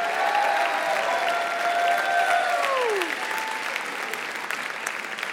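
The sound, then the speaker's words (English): Audience applause welcoming grandparents at a school Grandparents' Day event: sustained, dense clapping from a large crowd that holds strong, then eases slightly after about three seconds while continuing to the end. “In case you haven't noticed, it's Grandparents' Day. So will you give our grandparents a rousing welcome?”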